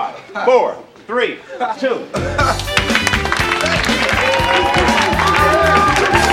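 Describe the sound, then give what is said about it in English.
Studio audience applause on a cable talk show breaks out after a brief stretch of talk, then swells into a loud, sustained roar of clapping and cheering that carries to the end. “You know, whenever you can come back with an applause like that, it makes you want to come back.”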